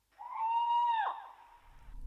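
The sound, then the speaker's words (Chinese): An owl hooting in the distance gives a single faint, drawn-out tonal hoot that holds steady, then drops away at its end. “远处传来一只猫头鹰的叫声”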